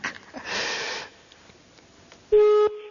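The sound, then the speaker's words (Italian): A person blows their nose in one broad, noisy burst, followed by softer sniffing sounds and then a short, loud electronic beep. “Scusi, mi stavo soffiando il naso.”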